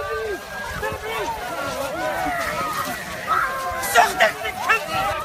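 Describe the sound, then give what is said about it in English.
Commotion as migrants break out of a camp in Hungary: a hubbub of overlapping voices with scuffling movement and a few louder bursts near the end. “It's a camera woman for N1 TV tripping migrants, kicking them as they broke out of that camp to try to walk to Germany. We'll link you to the video at hereandnow.org. Here's some of the sound.”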